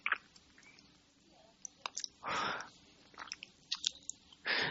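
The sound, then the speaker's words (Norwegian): Wet washcloth wrung out while rinsing away soap during a bed bath for a bedridden patient: two longer splashy bursts of dripping water among scattered clicks and squishy crunches. “Nå skal jeg skylle, så jeg vrir opp kluten etter å ha fjernet noe av sepen.”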